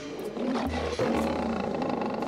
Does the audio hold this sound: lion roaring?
yes